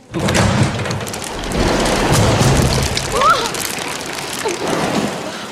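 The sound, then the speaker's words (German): A violent gust of wind blows open a window above a colonnade, and hail falls onto a gathering below. Dense, roaring storm noise keeps a steady level with a few swelling surges. “Ein heftiger Windstoß stößt ein Fenster oben über der Säulenhalle auf. Einige Hagelkörner fallen herunter auf die Gesellschaft,”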